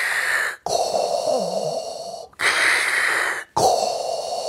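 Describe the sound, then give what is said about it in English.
A person imitates Darth Vader's heavy breathing with four loud, rasping, hissing breaths. Each breath is sustained, and short silent gaps separate them in a slow, steady rhythm. “We need to do some heavy breathing.”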